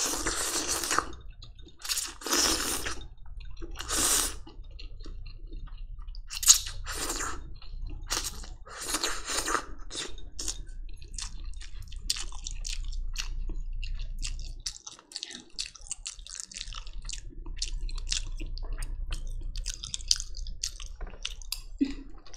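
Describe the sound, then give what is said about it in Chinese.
Somen noodles are eaten in summer: several loud, hissing slurps come in bursts over the first ten seconds, followed by steady wet chewing and smacking with no talking. “夏天果然就是要吃素面哦，好赞！”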